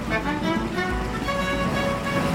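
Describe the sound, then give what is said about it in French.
Ambience of a public swimming pool in Belleville, Paris, during a session for overweight swimmers: a continuous, loud wash of splashing water and echoing noise that holds steady throughout. “Là, je suis à la piscine, à Belleville, à Paris, dans un créneau horaire réservé aux naïades qui réunit des femmes et des hommes en surpoids.”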